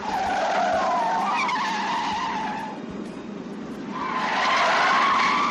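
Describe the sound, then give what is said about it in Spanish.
A speeding car with its tires skidding, giving two long, loud, high squeals separated by a short dip, over a continuous engine roar. “Ve más despacio, por favor. Te he dicho que no conduzcas tan rápido, George.”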